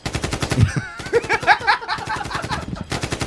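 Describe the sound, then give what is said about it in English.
Rapid machine gun fire rattles on for about three seconds, a dense, unbroken stream of sharp, evenly spaced shots. “Machine guns.”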